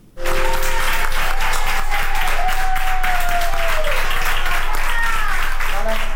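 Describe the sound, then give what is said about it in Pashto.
Doctors and nurses in a Madrid hospital applaud a woman over one hundred years old who recovered from coronavirus, a sustained burst of loud, dense clapping with voices mixed in that starts abruptly and continues without pause. “د اسپانیا په پلاسمینه مادرید کې ډاکټران او نرسان هغې مېرمنې ته چکچکې کوي چې تر سلو کلونو تیره ده او له کورونا رغېدلې ده”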